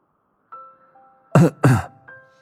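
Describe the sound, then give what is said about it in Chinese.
Two short, loud coughs in quick succession, a man coughing twice over soft, sustained tones that continue before and after. “唐默咳嗽了两声”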